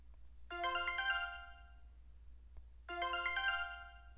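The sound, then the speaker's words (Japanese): An email notification alert on a phone sounds twice: two identical short melodic chime phrases, each about a second long, separated by a pause, fairly faint over a low hum. “おっと、ここでメールをいただきました。”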